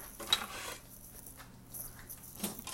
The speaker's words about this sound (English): And get the rest of this stuff in the dishy-wishy. Dishy-wishy washer.